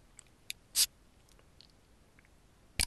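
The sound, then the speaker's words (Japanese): A craft beer bottle cap is pried open: a small click, then a sharp hissing pop, and one more crisp click near the end against an otherwise quiet background. “はい、ということで飲んでいきたいと思います。栓を開ける瓶なんでね。”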